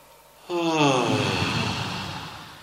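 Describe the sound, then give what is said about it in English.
A long, slow audible exhale with a soft, voiced, sigh-like tone, steady and moderately loud, during a guided breathing exercise at a meditation and qi gong retreat. “So breathing in, breathing out.”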